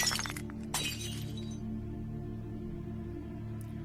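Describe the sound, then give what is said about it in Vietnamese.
A jar-like vessel shatters against a creature's head, with two sharp bursts of breaking glass close together at the start, then the sound quickly fades to a faint low hum. “hai chân dồn lực lấy đà, vung chiếc bình tới. Chỉ nghe đánh choang một cái.”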